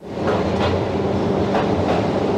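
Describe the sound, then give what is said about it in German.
Small train rolling slowly down a slope into an underground tunnel, a steady loud rumble of wheels on rails with a few rhythmic clacks, no voices. “Langsam fährt die kleine Bahn schräg hinunter in den Tunnel, bis in eine Tiefe von 700 Metern.”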